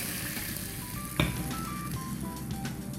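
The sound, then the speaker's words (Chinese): Chili and coriander stir-fried briefly in a wok give off a steady, loud sizzle, broken once by a short, sharp knock of a utensil against the pan. “我们最后面的这个辣椒跟香菜，只要下去稍微这样过一下， 一下下就可以 上来。”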